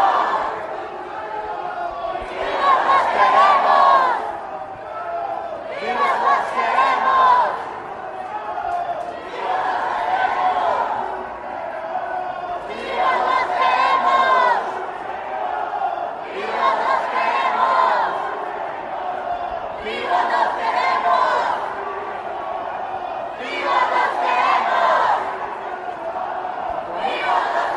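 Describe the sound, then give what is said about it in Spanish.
A large protest march for the disappeared, with the crowd chanting in loud, rhythmic phrases. The chant repeats in regular bursts about every three to four seconds, and the mass of voices stays steady throughout. “Sí, Dalia, esta es una de las manifestaciones más impresionantes que me ha tocado ver sobre las y los desaparecidos.”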